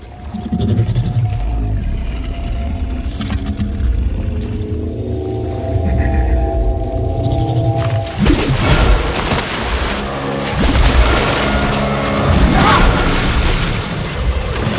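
Strange alien creature sounds and heavy booms from a film scene of an attack. Harsh bleating and roaring cries run through a loud, dense, continuous rumble that turns rougher and busier in the second half.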